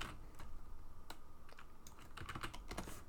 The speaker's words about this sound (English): And I'm going to type this in